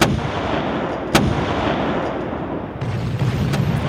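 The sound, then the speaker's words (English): Warship cannon firing broadsides in a naval engagement. A few sharp, heavy reports cut through a continuous loud roar of rumbling gunfire that barely lets up. “For 15 minutes, from 4:30 to 4:45 p.m., the Leopard unleashes broadside after broadside.”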